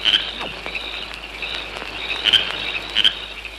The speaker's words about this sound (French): C'est le chant des grillons la nuit en Provence.